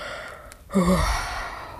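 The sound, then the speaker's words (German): A storyteller voicing a sleepy cat's yawn early in the morning: a single drawn-out, breathy vocal exhale with a descending tone, rising from quiet and then slowly tailing off. “Und dann gähnte er einmal,”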